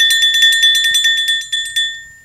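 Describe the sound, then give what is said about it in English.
A doorbell rings with a rapid, loud electric jangle, its bright metallic tones repeating in quick even strikes for about two seconds before fading into a few slower final hits; no voices. “Then, all of a sudden, the doorbell rang.”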